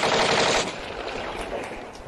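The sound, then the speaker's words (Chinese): Gunfire aimed at a fleeing boy by soldiers: a loud, dense rattling burst of rapid shots for about half a second, then a fainter, noisy, echoing tail. “开枪！开枪！ 快开枪！”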